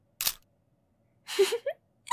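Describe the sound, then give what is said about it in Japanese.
A camera shutter fires as a photo is taken from a low angle, a sharp click followed by a longer mechanical rattle and another short click at the end, with no talk. “そうそう、そうやって下から撮ってみるとわかるでしょ？いい写真になったかな？”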